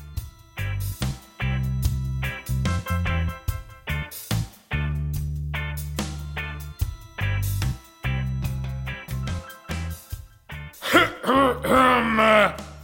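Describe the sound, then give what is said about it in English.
A man does an exaggerated, drawn-out throat clearing, loud and rasping, over a steady rhythmic pulsing background. “I had to do a dramatic clearing of the throat”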